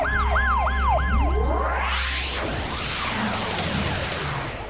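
An ambulance siren wails loudly in a few rapid up-and-down cycles over a steady low rumble, then gives way to a broad rushing whoosh as the vehicle arrives.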